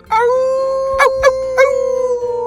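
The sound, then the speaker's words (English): A werewolf's howl: a loud, sustained tonal wail holding a steady pitch, broken by three short sharp bursts, then a wavering, pulsing tail. “We just received a howl. They rushed to the door and flung it open to reveal a giant shaggy brown werewolf with a slobbery”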